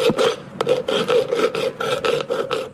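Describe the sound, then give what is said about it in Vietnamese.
Silver being hand-engraved by a Cham craft family in Bầu Trúc village, Khánh Hòa, Vietnam, making ritual objects with chisel and hammer. Many rhythmic, gritty metal scraping strokes repeat at a steady pace, with one sharp click partway through and no voices. “Đó là tiếng chạm khắc bạc”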